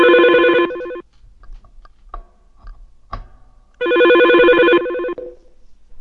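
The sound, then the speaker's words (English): A telephone line that began ringing when an elevator was called: two long, loud trilling bursts separated by a few seconds of faint clicks and taps. “Why did this other number start ringing when we called the elevator?”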